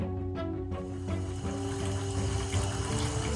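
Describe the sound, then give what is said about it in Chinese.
Hot water runs into a bathtub as it fills: a steady, unbroken rush of pouring water at a fairly quiet level, with faint steady tones underneath. “庞太太很快地放了一缸满满的热热的洗澡水，她把半瓶泡泡沐浴巾全倒进水里，”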